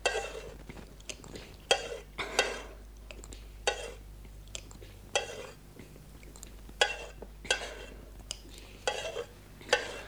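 A cooking pot holding brewed wheat is handled, giving many irregular metallic clinks and scrapes with soft clattering between them. The clinks and scrapes are moderately loud against a quiet background.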